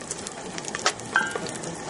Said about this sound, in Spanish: Vamos a cocinar los ajos durante un rato para que queden bien tiernos.